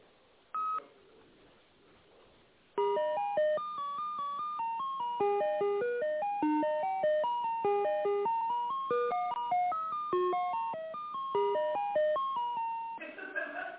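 Telephone keypad dialing tones as a call is being connected: one short beep, a pause, then a long rapid run of many clipped electronic tones at shifting pitches, loud and steady.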